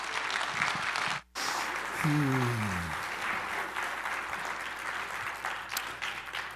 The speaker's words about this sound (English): let's give him a hand as he comes